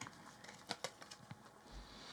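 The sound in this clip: Tarot cards are shuffled with a few soft, papery taps and flicks, quick and irregular, heard faintly over a low background hiss.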